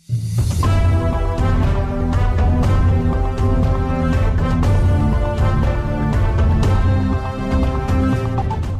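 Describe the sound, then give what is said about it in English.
A radio station jingle built on a famous classical symphony plays as full orchestral-style music, dense and loud, running continuously for about nine seconds without any talk. “Our station has therefore chosen a new jingle, which is nevertheless still based around Dvořák's famous symphony.”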